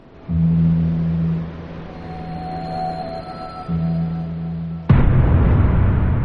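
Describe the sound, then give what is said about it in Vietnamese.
A sudden loud explosion bursts out inside a vehicle during a snowstorm, breaking a low steady droning hum into a harsh roaring blast that carries on to the end. “một âm thanh chói tai kinh khiếp, nghe như là tiếng nổ ở đâu đó”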